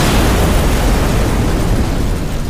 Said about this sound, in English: Directly under the dining room was the boiler for the steamboat. The pressure built up and up until it exploded,